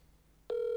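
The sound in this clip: A ringing tone on an outgoing phone call: after a brief quiet hiss, one clean, steady mid-pitched tone switches on abruptly and holds to the end, fairly loud and alone.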